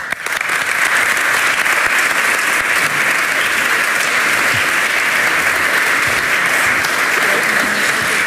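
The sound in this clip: An audience gives loud, steady applause to welcome a speaker, a dense unbroken clapping that holds at the same level throughout.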